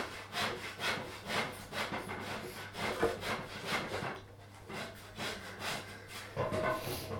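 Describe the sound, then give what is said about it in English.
Wood is being sawn by hand in steady, rhythmic back-and-forth strokes with a brief pause midway, over a faint low hum and with no talk. “Yeah, that's cutting wood.”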